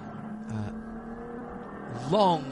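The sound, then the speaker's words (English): Race cars, including four-door BMWs, accelerate uphill on a circuit after a green flag: a steady engine drone under commentary, ending in a sharp, louder rev that climbs in pitch. “Green flag on the exit. And they get immediately back up to speed to the top of the hill.”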